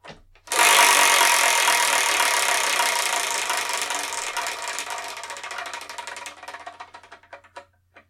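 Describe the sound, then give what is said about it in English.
A prize wheel, the Wheel of Manga, is spun: a loud burst of rapid ratcheting clicks that slowly thin out and fade, ending in a few widely spaced ticks as the wheel slows to a stop. “What I'm going to do is I'm going to spin that one, that only, the Wheel of Manga.”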